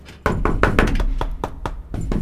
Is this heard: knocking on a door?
yes